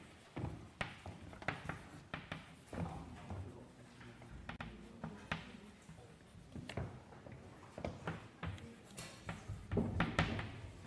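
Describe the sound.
Handwriting a note during a maths lecture: many short scratchy strokes and light taps in an uneven rhythm, moderately loud, with no talk.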